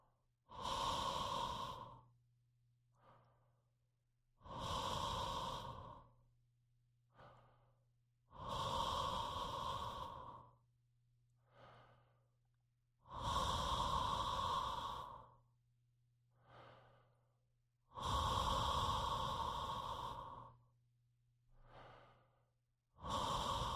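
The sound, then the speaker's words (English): Deep, slow breaths come and go during a vocal warm-up exercise. Each long, airy breath is drawn to the core and released in an even, repeating cycle, with a shorter, softer breath between each one. “Tilt your head back gently, drop your jaw, open throat, breath down to your core, shoulders open and relaxed.”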